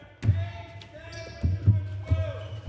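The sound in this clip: Basketballs bouncing in the hall of the Ravelin Sports Centre: several heavy, low thuds at uneven intervals, with people talking over them.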